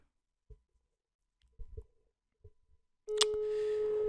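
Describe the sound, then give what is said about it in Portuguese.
Telephone ringing tone on a call to a sister: after a few faint taps, a steady, loud electronic tone starts abruptly and holds to the end. “Vamos ir ligar à minha irmã e ver o que é que ela me responde.”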